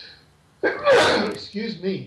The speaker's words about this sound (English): Excuse me, folks. I just sneezed online.